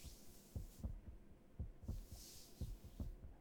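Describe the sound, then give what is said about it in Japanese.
A person's heartbeat thumps in a steady rhythm of soft, low, paired beats, faint under a steady background hiss. “こうやって俺の心臓の音を聞いていると、だんだん眠くなってくるから”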